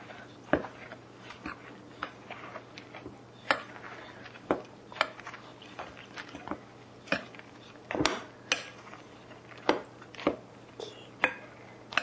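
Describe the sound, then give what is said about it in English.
Dry ingredients stirred in a bowl before the oil goes in, heard as many light, irregular clicks and taps of a utensil against the bowl, with soft scraping between them. “Mix the dry ingredients. So now mix.”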